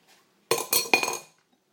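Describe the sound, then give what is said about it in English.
Three quick, loud bangs as a mayonnaise sandwich is banged down flat, each thump carrying a clattery, slightly ringing edge, in fast succession. “I'm just going to flatten this down. Bang it down, more like.”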